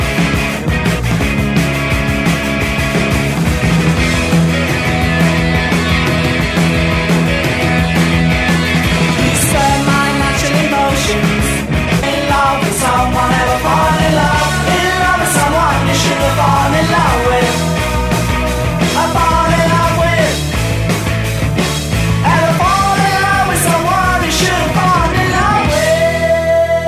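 A UK punk rock band plays a fast, loud song with driving distorted electric guitars, bass and pounding drums, a dense, continuous wall of sound with a sung melody running throughout.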